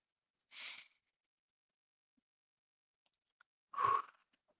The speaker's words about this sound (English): Okay, I'm gonna breathe in and breathe out.